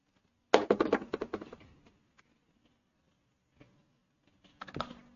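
Faint computer keyboard typing while a section of text is deleted: a quick run of keystrokes, then a few scattered taps, then another short cluster of presses at the end.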